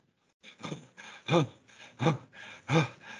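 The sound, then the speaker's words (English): Rapid, short breaths drawn in and out as a mindful breathing exercise: a quick run of many breathy bursts, alternating between louder and softer puffs, with no talking. “so long as it's just mindfully breathing short. That's the point. So it can be very, very rapid. We can go,”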